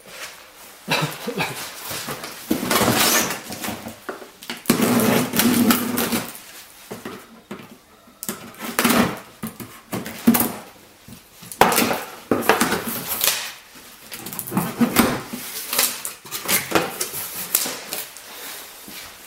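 Unboxing a chainsaw package: bursts of crinkling packaging and hard items clattering and knocking, separated by short quiet gaps.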